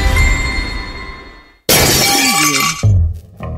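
Glass breaking, a window pane or similar: one loud, sudden shattering crash with bright tinkling fragments, following a fading sustained tone.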